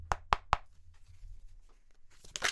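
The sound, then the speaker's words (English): A card is pulled from the Wilder Woven Tarot deck by Greg White. Three sharp, quick taps open the moment, followed by faint soft rustling and a brief louder brushing flurry at the end. “I'm going to pull a card from Old Faithful, Wilder Woven Tarot by Greg White.”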